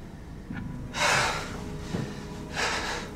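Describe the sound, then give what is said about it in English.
A man breathes heavily while hunched over a bathroom sink, with a few loud, rough breath bursts separated by quieter pauses and no speech. “hunches over the bathroom sink, taking heavy breaths”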